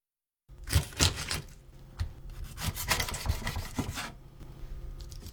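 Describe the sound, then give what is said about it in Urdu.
A knife cuts a scaled, headless fish open butterfly style, making a few coarse rasping, sawing strokes of varying loudness, with no talk. “اس کے بعد سر کو اس کی نچلی طرف سے کاٹ دیجیے۔ اب ہم اسے بٹر فلائی انداز میں کھولیں گے۔”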